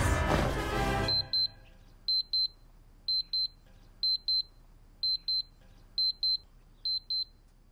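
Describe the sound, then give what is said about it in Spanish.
Electronic double beeps from a Star Wars projection alarm clock: seven evenly spaced, high-pitched pairs about once per second. They follow a short burst of louder mixed sound at the start, and no one speaks. “Si sueñas con Star Wars, este es tu despertador.”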